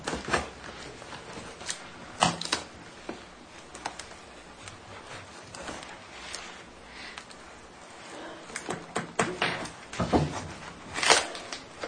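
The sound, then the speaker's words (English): A larger cardboard box delivered by UPS is opened: irregular scrapes, taps and rustles of handling cardboard, with short sharper peaks scattered through a steady low bed of noise. “Can't quite make out the name on the outside of the box, so we'll open that up and see what's inside.”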